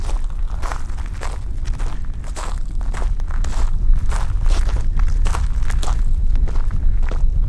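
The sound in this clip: Footsteps of someone walking toward a glaciered mountain, a steady, even rhythm of many crunching steps, moderately loud and alone without talk.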